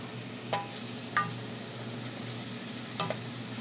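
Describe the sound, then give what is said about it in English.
Onions sauté in a pan on a stove for soup, giving a steady, soft sizzle with a few brief stirring scrapes over the continuous frying. “On the stove, she sautés onions for the soup.”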